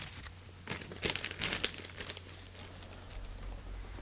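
A small paper coupon is unfolded with a few quiet crinkles and papery rustles clustered in the middle, fading back to near silence.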